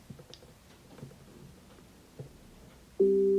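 A steady electronic tone from an Echo Show 15 smart display, triggered by holding down its mic on/off button. After a few seconds of faint handling clicks, the clear pitched beep starts abruptly and holds to the end.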